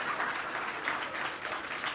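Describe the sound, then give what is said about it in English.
Audience applause as a town mayor is introduced at a public event: dense, steady clapping from many hands, moderately loud and even throughout, with no talk over it. “No, you don't have to clap. Don't clap for him.”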